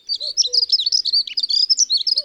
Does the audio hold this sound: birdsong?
yes